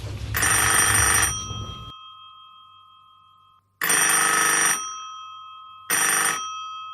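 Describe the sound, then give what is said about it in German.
A telephone rings for an incoming call: three bright, electronic bell-like rings separated by long silent pauses, the last one shorter, with no talk. “Und jetzt warten wir auf den Anruf”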